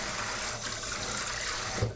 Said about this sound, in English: Rinsing off my potato peeler because the potato starch can get stuck on and be hard to scrub off. Rinsing my knife also.